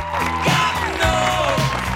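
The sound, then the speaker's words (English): A crowd cheers and claps wildly as a school football team wins, with several loud falling whoops from voices rising over the clapping. “The Elm Forest players curtsy as the crowd go wild.”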